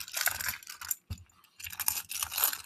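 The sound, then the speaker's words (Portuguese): Small stones are shuffled for a Livro da Luz reading, making dense clicking and rattling in two bursts split by a short pause. “Estou aqui embaralhando as pedrinhas.”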